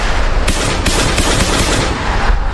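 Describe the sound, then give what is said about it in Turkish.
Gunfire sprayed at a crowd of young people gathered for a military send-off celebration. Loud, dense, rapid shots crackle continuously throughout. “Tartıştığı grubun yanına kısa süre sonra silahla geri dönen 17 yaşındaki bir şüpheli kalabalığa kurşun yağdırdı.”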